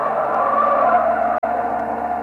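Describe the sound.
A speeding car with no brakes roars with a loud, steady engine and tyre noise that holds one pitch throughout, broken only by a brief cut-out partway through.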